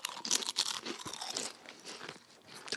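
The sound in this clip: Salt and vinegar stacked potato chips crunch as they are chewed, in many crisp, brittle crackles in an irregular rhythm, with no talking.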